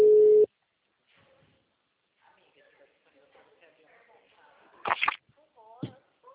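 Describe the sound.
A telephone tone heard while calling a client: one loud, steady burst at the very start, then near silence with faint voices, and a few louder spoken sounds toward the end.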